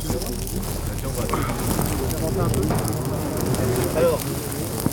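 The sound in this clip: Fire being lit for a controlled burn at a woodland edge: a steady, loud, crackling roar with people talking over it.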